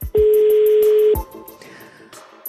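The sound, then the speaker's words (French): A single long telephone ring tone sounds during a radio prize-draw call to a listener, a loud steady beep lasting about a second, then dropping to faint line noise. “Alors attention, ça sonne.”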